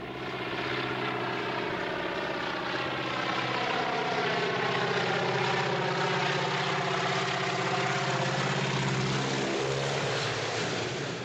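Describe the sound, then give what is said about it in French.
Propeller engine drone of a low-flying aeroplane, a steady, loud, continuous buzz with layered harmonic tones that holds for the whole clip without breaks and with no voices. “Cet aéroplane diabolique était là, volant bas, à une dizaine de miles dans le sud, et venant rapidement dans ma direction.”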